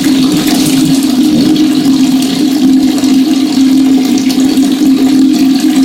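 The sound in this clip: Water is scooped and poured for ablution, giving a loud, continuous rushing flow without pauses over a steady low hum.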